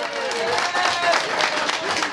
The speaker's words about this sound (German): Um 12:30 heute Mittag war alles klar und am Hauptsitz der Gewerkschaft Unia am Rande von Bern brach der Jubel aus.